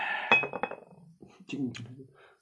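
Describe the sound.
Glasses clink together in a cheers toast: a sharp clink with a brief ringing tone and a few lighter knocks, alongside voices talking.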